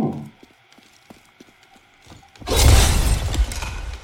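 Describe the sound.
A destructible wooden table smashed in the video game Diablo 3. Faint scattered taps and clops come first, then a sudden loud crash of breaking debris that rumbles on for over a second.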